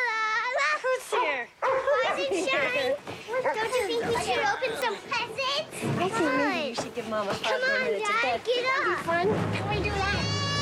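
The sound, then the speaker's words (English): A dog on a bed yips and whimpers in high, wavering cries through many short bursts, mixed with children's excited voices and chatter. “What is this dog doing on the bed?”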